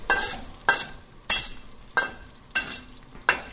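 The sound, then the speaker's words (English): Whole Sichuan peppercorns and dried chilies are stir-fried in a wok, giving six loud bursts of sizzling and scraping in a steady tossing rhythm, each fading back to a softer hiss. “A little bit of Sichuan peppercorn. Whole. And some whole dried chilies. Move that around pretty quickly.”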